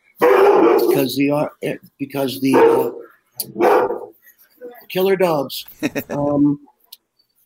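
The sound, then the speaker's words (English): Barking from a big doodle, one of four large household dogs, excited at someone coming home while unwell: a series of loud, tonal barks in quick bursts with short pauses between them. “Come here, Cody. He's happy he heard somebody come home. It's my big doodle. He's not feeling too good. I got 4 big-ass dogs.”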